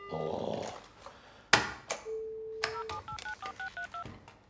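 Telephone keypad tones sound during a call to an automated German customer-service menu. A few clicks and a long low beep come first, then a rapid run of many short two-tone dialing beeps that change in pitch.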